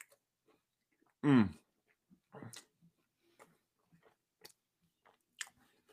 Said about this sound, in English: Actually, let me, because I haven't taken a bite of this yet.